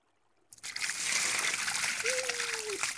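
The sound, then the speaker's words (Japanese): Hot water poured over a seated person in a bath, starting with a sudden gush and continuing as a steady, loud splashing flow to the end. “お湯をかけますよ”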